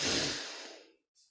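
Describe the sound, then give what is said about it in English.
A deep breath drawn in through the nose: one long, airy rush that starts strong and gradually fades out, followed by a brief faint puff of air, all quiet and without speech. “Let's close our eyes for a moment, taking a deep breath in through your nose”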